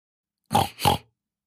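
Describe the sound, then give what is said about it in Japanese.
A voice imitates a pig, making two short, nasal grunting oinks in quick succession with silence around them. “ブタさんだぞブヒブヒしちゃうぞ”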